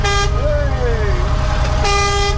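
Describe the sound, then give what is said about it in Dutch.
Horns tooted by children pulling their cords give sustained, fairly loud harmonic tones whose pitch wavers and slides, with brief noisy bursts at the start and near the end. “Al die kindertjes die staan aan de horens te trekken. Zie je dat? Ja. Vind je mooi, hè? Ja. Ze weten niet eens wat betekent. Ja, toeteren, maar dat het touwtje betekent.”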